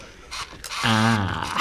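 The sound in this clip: Camera mechanism clicking as photos are taken, with a few sharp mechanical clicks and ratcheting sounds like a shutter and winder working in quick succession.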